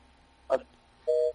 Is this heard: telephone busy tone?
yes